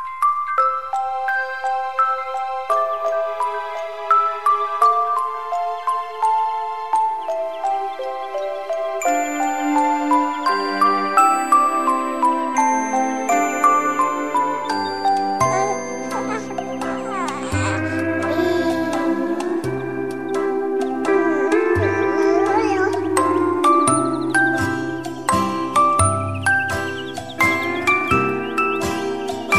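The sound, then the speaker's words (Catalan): Gentle bedtime background music with soft, tinkling, bell-like notes in a slow, calm melody. Lower bass tones join in the second half, and no voices are heard. “I quan sona aquesta musiqueta de fons, una cançó que ens convida, una música que ens convida per anar a dormir.”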